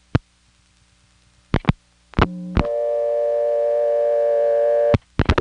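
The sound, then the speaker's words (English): A telephone dial tone returns after 19 is dialed into a faulty link between switches. A few sharp clicks and a brief tone lead into a steady, buzzy tone lasting over two seconds, which is cut off by more clicks. “when I dial 19 into the drain, it dumps me back to dial tone somehow.”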